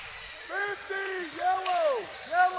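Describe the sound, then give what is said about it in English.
Basketball dribbled on a court during a high school game near halftime, the dull bounces faint and low beneath steady crowd noise and voices. “dribbling just inside the half-court stripe”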